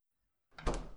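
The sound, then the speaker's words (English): A door slamming shut during a tabletop role-playing game: a single soft thud breaks the silence and trails off faintly. “The door slams behind him.”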